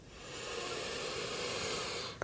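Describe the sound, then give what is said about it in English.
A single deep breath, a soft, steady airy rush that holds for about two seconds and then stops. “But I invite you to just take a final deep breath in.”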